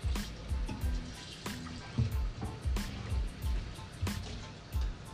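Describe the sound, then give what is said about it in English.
Water runs and splashes as starch is rinsed off and drained in a colander. The flow is steady and rushing, with many irregular surges and spatters throughout. “And rinse the starch off. Drain it.”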